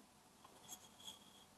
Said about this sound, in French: là, en ce moment, j'écris mes souhaits